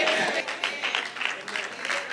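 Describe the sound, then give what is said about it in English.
Sparse clapping from a church audience during a sermon, uneven bursts of hand claps that rise and drop irregularly at moderate volume. “It's a sad clap in the middle. I see two hands clapping.”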